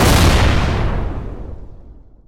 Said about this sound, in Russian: Грохотнула пушка, меня обдало горячим воздухом и оглушило даже через шлем и тактические наушники.